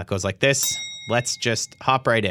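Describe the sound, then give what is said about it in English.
A bell rung as a sound effect between news items, giving one bright, sustained metallic ring that lingers briefly while people talk over it. “We separate them with an audio effect, with some FX. It's the sound of a bell.”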